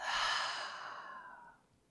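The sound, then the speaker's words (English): One long, deep exhale through the open mouth, a breathy, airy rush that starts strong and gradually fades over nearly two seconds, heard alone with no talk. “So let's take one more deep, full, long breath in. Open the mouth. And exhale all of it out.”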